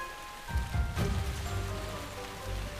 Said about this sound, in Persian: هر قطره آن تأثیر بسیار زیادی در زندگی‌های کوچک دارد. باران استخر بچه قورباغه را پر نگه می‌دارد.